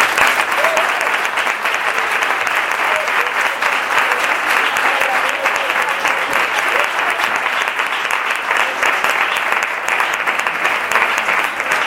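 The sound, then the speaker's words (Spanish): Audience applause for a poet at a reading: dense, continuous clapping from many hands, loud and steady throughout with no break. “un fuerte aplauso para él.”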